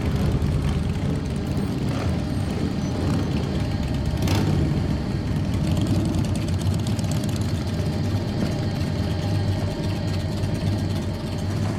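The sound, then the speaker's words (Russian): Low, continuous engine drone of motorcycles riding along a road. The rumble holds steady for the whole clip, with one brief louder burst around the middle. “Со страхом смотрит на дорогу, по которой едут байкеры.”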